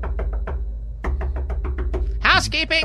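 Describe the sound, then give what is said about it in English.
Knocking on a hotel room door at 8:30 in the morning despite a do-not-disturb sign: two bursts of quick, even raps, followed by a brief voice. “they're still knocking, no. And I'm wondering what part of English, or they're knocking on the door next door,”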